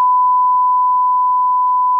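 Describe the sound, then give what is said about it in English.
A censor beep: one steady, loud, unbroken tone at a single pitch that holds for about two seconds, with only a faint low rumble beneath it. “I'm going to beep this”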